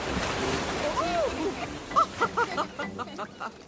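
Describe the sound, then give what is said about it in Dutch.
Ocean surf washes up onto a beach, a steady rushing wash of water that runs through the whole clip while voices call out over it. “Kijk uit voor de golf.”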